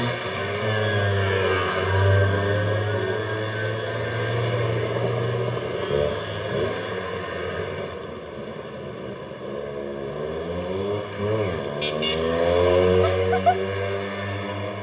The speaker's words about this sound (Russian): Они наблюдают, как парни катаются на мопеде.